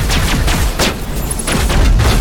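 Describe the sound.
Heavy gunfire in a Mass Effect video game battle against Geth troopers: dense bursts of overlapping shots and booming impacts, loud and continuous with no pause.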